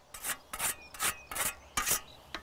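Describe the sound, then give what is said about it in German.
Rasping swishes of stinging nettles being mown to make homemade liquid fertiliser, with about six rhythmic strokes evenly spaced and separated by brief pauses. “Jetzt soll ich hier ein paar Brennnessel für die Jauche mähen”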